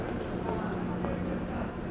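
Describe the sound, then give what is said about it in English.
A packed MARC commuter train slowly arrives at the Union Station platform during the morning rush hour, making a steady low rumble with faint mechanical clatter and no distinct breaks. “Welcome to Union Station during morning rush hour, except this is not Metro's Red Line platform. It's a MARC train, slowly arriving, packed with Maryland to D.C. commuters.”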